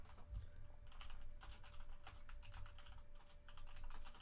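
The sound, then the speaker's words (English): Typing on a computer keyboard, with many quick, faint keystrokes clattering in an uneven but continuous rhythm and no voices. “Can't type when I'm sitting...”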